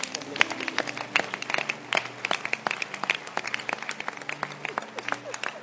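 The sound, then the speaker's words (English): Many hands clap in a church audience, a dense run of sharp, uneven claps that stays lively throughout. Sustained tonal voices or music sit underneath. “Clap your hands.”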